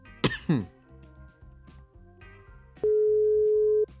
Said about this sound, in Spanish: Vamos a intentarlo de nuevo. Ahí está sonando.